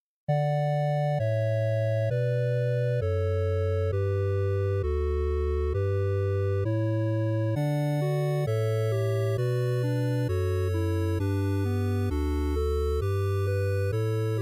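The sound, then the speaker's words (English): Classic 8-bit chiptune music in the style of the NES era, with buzzy square-wave synth tones. A steady bass line steps through a repeating progression about once per second beneath brighter melody notes, played continuously at an even level. “electronic music that sounds like it came straight from a classic video game. Perhaps in the old Nintendo Entertainment System era.”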